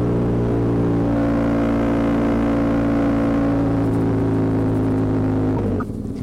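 Motorcycle engine while riding, a steady, dense low drone with a constant tonal hum that holds evenly throughout before shifting briefly near the end.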